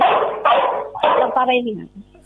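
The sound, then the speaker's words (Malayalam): A dog barks a few times during a live telephone call, its barks tangled with a caller's voice so the words are hard to follow. “പേര്, ആ പട്ടിയുടെ കൊരയിൽ കലങ്ങി പോയി കേട്ടോ.”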